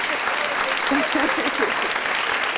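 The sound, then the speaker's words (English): Audience applause, a steady, fairly loud patter of clapping with a voice briefly speaking over it partway through. “I got to give you an applause, okay?”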